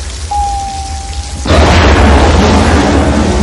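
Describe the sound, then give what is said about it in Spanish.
A steady high tone holds for about a second, then an elevator door in a Die Hard scene blows out with a burst of flame, a loud explosive blast that carries on as a sustained roaring rumble. “Llega un ascensor, la puerta estalla expulsando una llamarada.”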